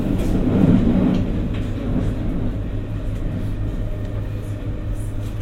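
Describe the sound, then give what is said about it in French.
Low, steady rumble of a train at a station platform, a constant heavy hum with faint rattling above it that holds at an even loudness throughout. “Attention à la marche. en descendant du train. Please mind the gap between the train and the platform.”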